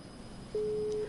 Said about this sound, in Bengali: দুঃখিত, বিচ্ছিন্ন হয়ে গেল সংযোগটি, আপনি বন্ধু আরেকবার চেষ্টা করুন।